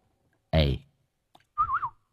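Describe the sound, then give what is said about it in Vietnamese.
A person whistles to call two people over in a yard. The whistle is one short tune with a wavering pitch, heard clearly on its own after a brief voiced burst and a tiny click. “Cậu huýt sáo”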